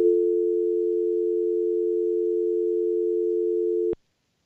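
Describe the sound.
Telephone dial tone after a caller's line drops: one steady, unbroken mid-pitched hum that holds for about four seconds and then cuts off abruptly, with no voices.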